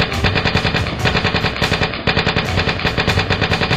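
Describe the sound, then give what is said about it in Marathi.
Automatic gunfire during an army raid on a house: loud, rapid bursts of many rounds in a driving rhythm, briefly broken by a short gap midway before the firing resumes. “घरात घुसणाऱ्यांवर automatic guns बरसू लागले.”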